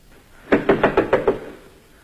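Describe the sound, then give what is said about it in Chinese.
Six quick, evenly spaced knocks on a door, a sound effect in a staged tragedy performance. They are sharp and fairly loud, then fall silent. “是敲门”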